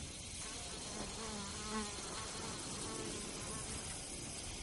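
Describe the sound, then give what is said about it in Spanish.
Flies buzz around the face of a man lying motionless on a floor near a half-open window. The buzzing is faint and wavering, drifting up and down in pitch against a soft hiss. “Tiene varias moscas sobre la cara.”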